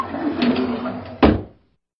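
A door closes with one firm thud near the end, after a soft, continuous rustling. Silence follows quickly.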